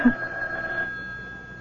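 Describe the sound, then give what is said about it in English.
A telephone bell rings in a radio drama, a steady bright tone that is strongest at first and then fades away. “Why? Why don't you answer the phone?”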